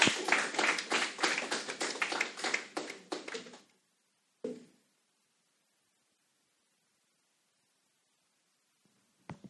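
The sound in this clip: Audience applause welcoming a speaker in a chapel: a burst of many hands clapping that fades and stops after a few seconds, leaving near silence broken by a couple of faint, brief sounds.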